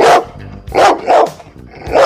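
A dog barks loudly, four separate rough barks spaced unevenly over two seconds, with nothing else heard between them.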